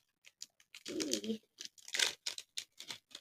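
A fruit-based snack bar's packaging is torn open in a series of short, crinkly rips and rustles. The quiet bursts are spaced unevenly.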